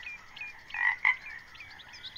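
A toad croaking: two short, raspy croaks close together near the middle, fairly faint, with no other sound around them.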